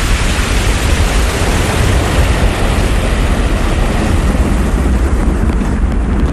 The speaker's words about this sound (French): Le décollage totalement manqué de la fusée Ariane 5, c'était le 4 juin 1996.